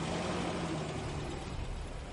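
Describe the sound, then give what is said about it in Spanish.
Car engines rumble steadily in a workshop as the cars start up to drive off, with an even, continuous engine noise and no clear revving peaks. “Todos montan en su coche y salen del taller.”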